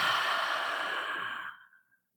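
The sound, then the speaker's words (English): A deep exhale out through the mouth during a breathing exercise: one long, breathy rush of air lasting about two seconds, steady at first, then thinning and fading out at the end, with no talking. “And take a deep inhale through the nose, allowing that breath to lengthen the spine. And exhale out the mouth.”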